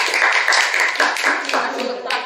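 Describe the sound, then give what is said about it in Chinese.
Applause from a class of students as a classmate is invited up to present, a dense, steady clapping that carries evenly through the whole stretch without pause. “好，这边掌声。”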